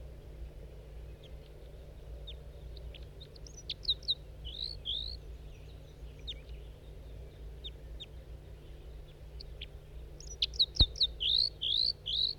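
Short, high chirps and squeaky calls from a wild male bird near its flock. They come in two scattered bursts over a steady low hum.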